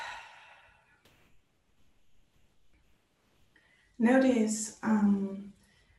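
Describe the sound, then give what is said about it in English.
A deep breath is taken during a guided relaxation exercise: a faint airy exhale at first, then after a quiet pause two louder, voiced sighing breaths close together. “Take a deep breath.”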